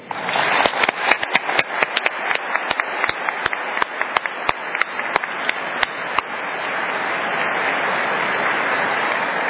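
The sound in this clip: Clapping welcomes the author Trent Horn. A few sharp, separate claps come first, then more hands join until the applause turns into a dense, steady wash that lasts to the end.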